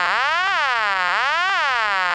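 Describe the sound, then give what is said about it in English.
Reorder or vacant level tone from a Number One step-by-step telephone exchange in Fairfield, Connecticut, with third-generation selectors. A buzzy, harmonic-rich tone repeatedly sweeps up and down in pitch about once a second, with a click at each peak. It is steady, loud and alone. “Here's an example of that from Fairfield, Connecticut, a number one step that has the crossbar type ring and also third generation selectors that are able to intercept dialing errors by having the reorder or vacant level tone”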